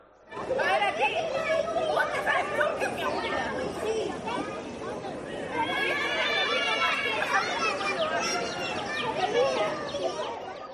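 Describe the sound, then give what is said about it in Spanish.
Cheerful children's voices and crowd chatter fill a Holy Week procession accompanying the Borriquita or Esperanza brotherhood, a dense, lively babble with high excited shouts that continues throughout. “No me olvido de otras cofradías y sus sonidos característicos. La alegría de los niños que acompañan a la borriquita o a la esperanza.”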